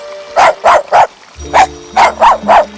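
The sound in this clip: A puppy barks seven times in two quick runs, with three sharp yaps and then four more after a short pause. A soft steady tone runs underneath from the midpoint on.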